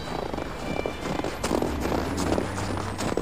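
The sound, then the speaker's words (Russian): Footsteps walking along a street, several soft steps scattered across a steady wash of traffic and outdoor noise, with no talking. “давай пройдемся. Ну, пошли.”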